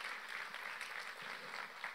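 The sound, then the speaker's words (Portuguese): Applause from a church audience during worship: dense, steady clapping of many hands, sustained and fairly faint for about two seconds. “Pode aplaudir ao Senhor porque ele merece.”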